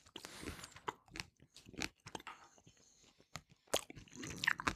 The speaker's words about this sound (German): Nackige Senfkörner esse ich.